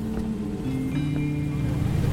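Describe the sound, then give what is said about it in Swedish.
A steady low engine drone from a boat motoring across the sea in fog, having left Kärringsund on the west side of Åland early on a Saturday morning. The hum holds even throughout under a wash of water and wind noise, with no talk. “Det är en tidig lördagsmorgon och vi har avgått med båt från Kärringsund på Ålands västra sida.”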